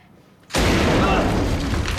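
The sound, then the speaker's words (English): A loud gunshot blast in an action scene, as a man is blown out through a window, erupts suddenly after a quiet start. It hangs on as a sustained roaring burst of noise to the end. “He blasts him through the window and turns to leave.”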